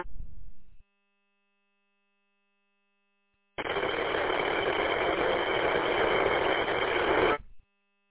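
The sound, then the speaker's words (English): Humming noise of a running motor heard over a radio link. It is a dense, steady hiss-like drone that lasts about four seconds after a short earlier burst and a pause, then cuts off abruptly. “Well, you're there, but it's about 95% noise, and that's the motor.”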